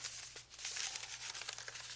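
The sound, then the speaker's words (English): A paper piano roll is loaded into a player piano, giving faint, irregular crinkling and rustling of paper as a run of soft, scratchy rustles with no voices. “You put the paper piano roll in here, and then you push this button.”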